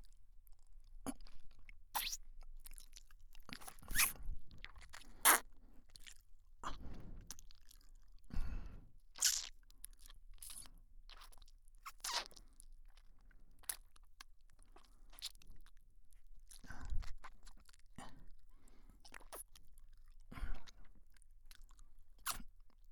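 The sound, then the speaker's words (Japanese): Close chewing and crunching, with many irregular crisp bites and soft wet mouth noises spaced unevenly across a very quiet background. “次は噛むんだったよな。”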